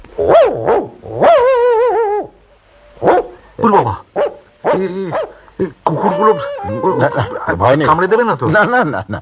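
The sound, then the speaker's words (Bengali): A pet dog barks at newcomers arriving at a small village home, giving several sharp barks and yelps mixed with people talking. “পোষা কুকুর কামড়াবে না, নতুন লোকে দেখেছে তাই।”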